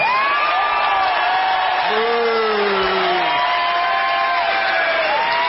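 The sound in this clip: Audience members in the lower section cheering and whooping when asked to greet at a live show, a loud, sustained wash of crowd noise with high whistle-like whoops rising and falling throughout.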